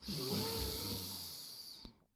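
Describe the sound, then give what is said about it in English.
A single long inhalation through both nostrils during a nasal-clearing breathing exercise. A soft, airy rush with a slight snore-like rasp lasts about two seconds, then stops abruptly. “Let go of the nostrils, breathe in through both nostrils,”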